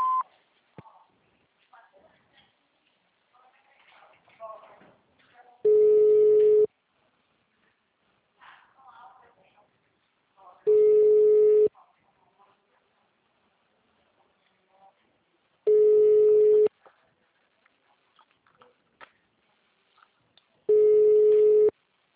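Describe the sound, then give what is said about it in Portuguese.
Four long electronic telephone tones from an automated phone menu, each lasting about a second at a steady mid pitch and evenly spaced about five seconds apart, with only faint, quiet sound between them. “Atendimento digital. Após o sinal, digite o ramal ou aguarde.”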